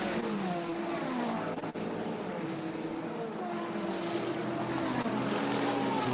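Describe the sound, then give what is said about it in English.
A Ferrari race car's engine holds a loud, steady drone through the whole clip, its tone wavering slightly. “was that Thomas Fleur in the Vista EF Corsa Ferrari? Of course it was.”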